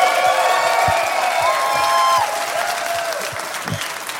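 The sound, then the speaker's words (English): Audience applause and cheering for a comedian at a live stand-up comedy festival in Las Vegas: dense sustained clapping with whoops and shouts throughout, easing slightly in the second half. “Make some fucking noise for Dave Attell.”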